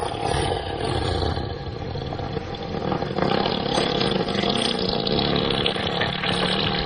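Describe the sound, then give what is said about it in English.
An elephant breaks wind in one long, continuous, raspy rumble, a rough buzzing drone like an engine starting that lasts several seconds without a break. “Let's go to the break with the elephant fart, in case you missed that. 7 seconds. Sounds a little like this.”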